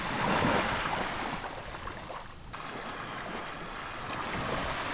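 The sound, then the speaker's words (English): Wind and waves roar steadily on the windswept rocky shore of Seal Island in the Bay of Fundy, a dense, unbroken wash of surf and gusts that dips briefly midway before swelling again. “For this interview, we're on Seal Island, a windswept mix of colorful fishermen's cottages, stunted trees, rocky shores, and tidal pools.”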